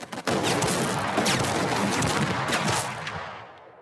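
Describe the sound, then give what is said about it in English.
A deafening barrage of gunfire as some thirty clan members open fire together in a standoff: a dense, continuous roar of overlapping shots with no gaps between them, loud throughout before tailing off at the end. “shielding her ears against the deafening barrage of gunfire.”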